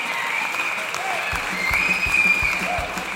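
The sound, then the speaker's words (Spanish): Applause greets the commemoration of the tenth anniversary of Venezuela's Bolivarian constitution. The clapping is dense, steady and fairly loud, with a thicker patter joining partway through. “aquí deberíamos poner un fuerte aplauso”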